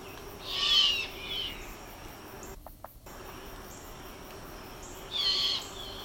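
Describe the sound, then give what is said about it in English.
A mourning dove cooing in two soft, hollow, owl-like phrases, one near the start and one near the end, over a faint steady hiss with a brief dropout in between. “That's not the mourning dove. This is the mourning dove.”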